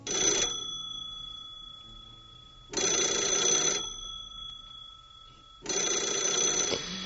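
An old-fashioned telephone bell, not a mobile ringtone, rings in three loud, bright bursts about a second long, separated by quiet pauses of roughly two seconds, with no voices.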